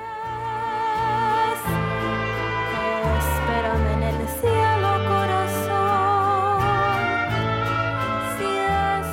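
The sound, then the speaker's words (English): A mariachi song, the title track from an 18-year-old musician's first album, plays continuously, with wavering vibrato melody lines over shifting sustained bass notes and no talk. “She's just released her first mariachi album. You're hearing the album's title song,”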